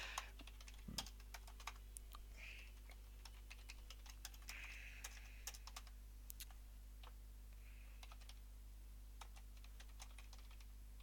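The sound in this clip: Rapid typing on a computer keyboard into a text editor: many faint, irregular key clicks with occasional louder taps, heard alone with no talk.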